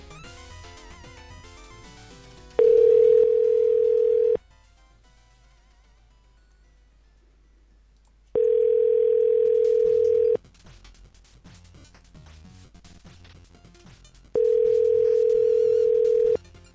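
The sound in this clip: A telephone line tone plays while a call is placed again: three steady, mid-pitched beeps of about two seconds each, separated by longer near-silent gaps.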